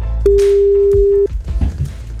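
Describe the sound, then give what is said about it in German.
A single steady telephone tone lasting about one second as a radio station dials a listener's number, followed by quieter low line noise. “Wir wählen jetzt und wollen den nächsten überraschen von euch.”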